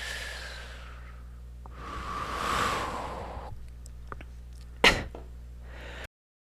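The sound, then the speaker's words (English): A deep breath drawn by a speaker who has a cold: a soft, breathy swell rising and falling over about a second and a half above a steady low hum, followed later by a brief sharp click. “Okay. Nice deep breath.”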